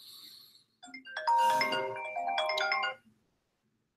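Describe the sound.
A phone ringtone for an incoming call plays as a bright electronic melody of stacked tones. It is one burst of about two seconds, with no voices.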